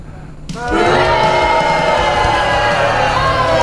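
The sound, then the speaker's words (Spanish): Crowd booing breaks out about half a second in and holds loud and steady to the end, a dense, continuous wash of many voices. “¿Qué le pasa? Están abucheando, bien huevo. Ya arrancamos así con los tapones de punta, como cuando salías a la cancha, Mantegol. Y querido, me están abucheando, ¿qué querés que le diga?”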